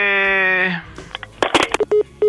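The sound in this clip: Telephone tones mark a call being cut off: a steady tone, then a scatter of clicks and a few short, identical beeps at the end.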